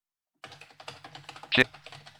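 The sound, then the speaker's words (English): Typing on a computer keyboard as characters are entered into a short social media post: many quick, irregular key clicks, mostly soft, with one louder clack partway through. “I'm not going to actually send this tweet, but I'll type some characters in here.”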